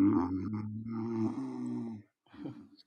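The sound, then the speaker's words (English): A person's snore: a long, low, buzzy drone with a rough harmonic tone that lasts about two seconds, then a brief pause and a shorter, softer rasping breath. “that was a delayed snore, literally. That was literally a delayed snore.”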